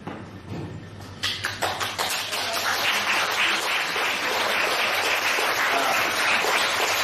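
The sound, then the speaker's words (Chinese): A small audience gives applause. A few scattered claps build within about two seconds into dense, continuous clapping, which then holds at a steady, even level. “你们虽然啊人这么少，但是鼓出来的掌声啊就像啊一千人一样”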